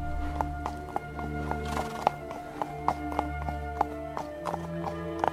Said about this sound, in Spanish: ¡Suelten ustedes las yeguas!